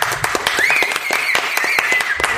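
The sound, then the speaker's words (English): Audience applause: many distinct, crisp hand claps in a busy, continuous patter, fairly loud and unbroken. “So it's a big thank you. Why don't we give you guys a round of applause?”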